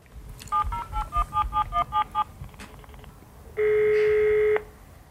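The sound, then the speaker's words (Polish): Touch-tone beeps as a telephone number is dialed for an international call to Brazil: a quick run of many short, evenly spaced beeps, a short pause, then one long steady electronic tone. “Zadzwonimy do mojego brata zaraz do Brazylii.”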